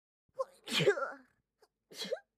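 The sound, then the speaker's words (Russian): A voice imitates a girl sneezing after wrinkling her face: a short run of breathy, voiced sneezes in quick succession, moderately loud and without other talk. “Билли сморщилась и 3 раза подряд чихнула.”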